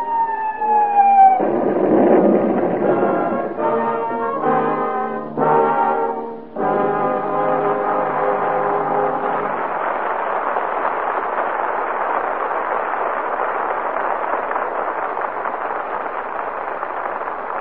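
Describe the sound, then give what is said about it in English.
Screaming whistle of a bomb released from a dive bomber, a radio drama sound effect: a loud, sustained wailing tone that slides downward, then gives way to a dense, steady roar. “And a man at the controls of a dive bomber presses the release button and delivers a screaming message of death to the Japs. And with each bomb goes a prayer.”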